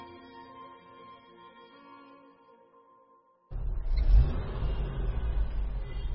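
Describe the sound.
A car sets off, driving away from an office in the evening. A loud, rough engine rumble with revving bursts in suddenly after a quiet stretch and holds strongly to the end.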